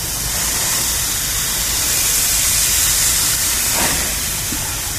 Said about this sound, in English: Yeah, good flame there.